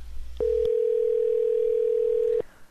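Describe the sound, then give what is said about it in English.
A telephone dial tone: a steady, loud, unbroken hum that holds at one even pitch for about two seconds, then cuts off cleanly. No key presses are evident. “Numbers were pressed. Eight. Right. Picked up phone line.”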